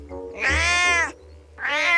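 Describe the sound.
A cat meows twice. The first meow is long and bright, followed after a short gap by a second one, both loud and clear with no talk.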